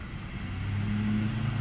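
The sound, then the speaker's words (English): Road vehicles pass by as a low, steady engine drone with a faint tonal hum, building slightly in loudness and then holding level; no one talks. “Damn vehicles.”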